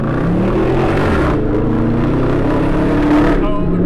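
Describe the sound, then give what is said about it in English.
A Dodge Charger muscle car driving on a test ride, its engine giving a loud, continuous low rumble with a rough, throaty growl that holds steady throughout. “I had the chance to sort of drive along with him for a bit, go for a bit of a test ride in his Dodge Charger.”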